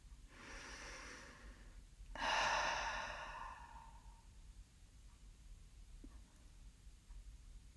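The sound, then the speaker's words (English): A deep, slow breath during a guided relaxation exercise: a long, soft airy breath, then a louder, fuller breath that fades gradually into quiet. “Keep your eyes closed and take a deep, slow breath together.”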